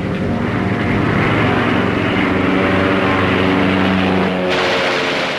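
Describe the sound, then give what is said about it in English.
A propeller airplane dives past with a loud, sustained engine drone and a steady harmonic whine, its tone shifting abruptly near the end. “The second plane dives toward Kong, its nose pointed at the ape.”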